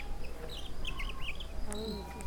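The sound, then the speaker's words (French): A European robin sings faint, thin, high warbling phrases in quick succession over a steady low background hum. “Je suis le rouge-gorge.”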